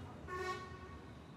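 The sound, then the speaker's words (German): A car horn sounds one short, bright toot in the narrow alleys of the Medina, rising briefly above a faint, low background rumble. “Fahr doch vorbei, brauchst nicht zu hupen. Wegen dir bekomme ich noch Kopfweh.”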